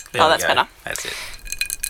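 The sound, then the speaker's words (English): Mostly melted ice clinks in a glass of Johnnie Walker Red on the rocks, a few light, bright taps following a short spoken phrase. “That's the sound of mostly melted ice in a glass of Johnny Walker Red, slightly watered down on the rocks.”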